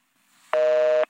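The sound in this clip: A telephone tone during redialing of a number: one steady, bright electronic beep lasting about half a second, starting and stopping abruptly.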